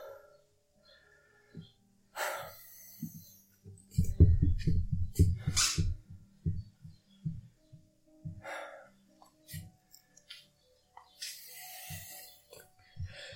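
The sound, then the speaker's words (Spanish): Heavy panting as a person catches their breath after ten pull-ups: a few loud, breathy inhales and exhales separated by pauses, with a stretch of low thumping sounds in the middle. “hace 10 dominadas. Además, voy a tomar un poquito de aliento y continúo.”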